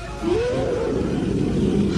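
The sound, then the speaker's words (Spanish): A giant tiger's roar: a low, drawn-out, growling tone that begins after a brief pause and stays loud and steady to the end, wavering slightly in pitch. “La joven Mariela, inmóvil junto al borde del cenote, miraba aterrada al gigantesco tigre que se acercaba lanzando su rugido de muerte”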